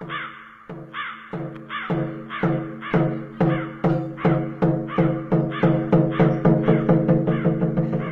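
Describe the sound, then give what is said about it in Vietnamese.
A flock of crows perched on a fence between two houses caws over and over, with many harsh calls in a fairly steady rhythm that grow a little louder and quicker toward the end. “Đâu đó bầy quạ, nó như ngửi được mùi người chết, nó lại về. Nó đậu ở giữa ngay bờ rào cách hai nhà mà kêu lên từng hồi.”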